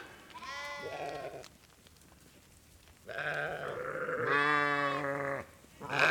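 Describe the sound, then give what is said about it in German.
Sheep or goats bleating in a livestock herd as a vehicle drives through it, several loud harmonic bleats in two bursts separated by a quieter gap of low rumble. “der fährt durch meine Herde durch da”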